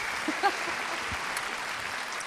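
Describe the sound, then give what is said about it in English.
Faint audience applause breaking out in the middle of a thumb piano (kalimba) tune, a soft, steady patter of clapping that carries on evenly for a couple of seconds. “I have to say, that's the first time, well, for me, maybe ever, that the thumb piano, the Klimba's gotten applause mid-tune.”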